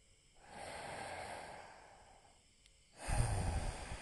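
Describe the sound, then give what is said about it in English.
A slow, deep breath drawn into the belly during a relaxation exercise: a soft, airy inhale lasting about two seconds, then a louder, rougher breath right after. “take a nice deep inhale into the belly”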